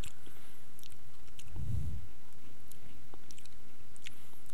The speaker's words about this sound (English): I've just given up talking. I'm eating right now.